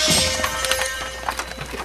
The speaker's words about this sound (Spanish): El demonio detuvo los caballos.